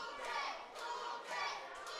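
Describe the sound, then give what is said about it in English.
A crowd at a wrestling show chants for a wrestler, many voices rising and falling together in rhythmic pulses about every half second, fairly faint and even throughout. “Crowd chanting for Cool J.”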